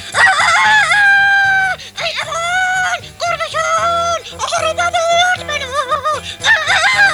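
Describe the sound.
A rooster crows loudly and repeatedly in a narrated folk tale, several drawn-out, wavering calls and squawks over a low, rhythmic background.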